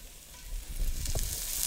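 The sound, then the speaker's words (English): Brussels sprouts sauté in olive oil in a pan with a steady, crackling sizzle that swells slightly partway through and carries on with no voices. “So Brussels sprouts are going into the pan.”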